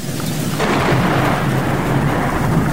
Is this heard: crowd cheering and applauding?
no